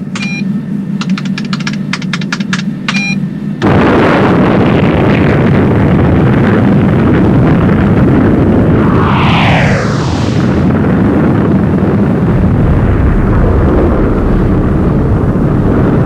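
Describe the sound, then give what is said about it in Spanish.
Sci-fi spaceship weapons firing in a radio drama: a run of electronic beeps gives way to a loud, sustained rumbling roar, with swooping whooshes sweeping through the middle. “Algo hizo que la nave se estremeciera. Se abrieron unas compuertas. Salieron disparados a gran velocidad una serie de armas infernales.”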